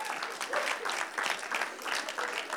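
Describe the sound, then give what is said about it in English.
Audience applause as single people in the crowd put their hands together: steady, dense clapping that carries evenly throughout with no talk over it. “Single people, put your hands together if that sounds good.”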